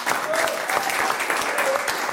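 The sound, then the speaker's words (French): An audience applauds a performer at a live show in Fribourg. The clapping is steady and dense, with no break over the whole two seconds. “On l'applaudit encore une fois, s'il vous plaît, Olivier Magaroto.”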